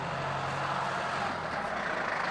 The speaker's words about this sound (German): Der Traktor!